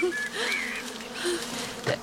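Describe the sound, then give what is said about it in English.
A swarm of bees buzzes at a hive as it is swept inside, a steady low hum with a few higher whining tones drifting over it and no talking. “You need most of the swarm swept into the hive and the rest will follow.”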